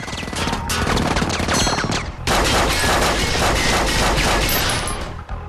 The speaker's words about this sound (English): Meanwhile, Jack is caught in a firefight.